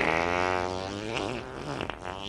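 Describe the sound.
A long, buzzy fart with a wavering tonal pitch, holding at a steady level for about two seconds before breaking into a few sputters at the end.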